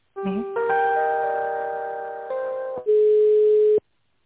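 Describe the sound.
Telephone line tones play while a call is being transferred: a brief low warble, then a layered steady electronic tone that shifts once and drops out, followed by a single loud, sustained beep that cuts off abruptly.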